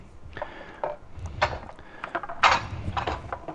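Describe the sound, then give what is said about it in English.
Silicone tongs are picked up in a kitchen while enchiladas are being made, giving a few faint, light clacks and knocks, like utensils lightly bumping against each other and against the counter. “All right. Let me get my tongs.”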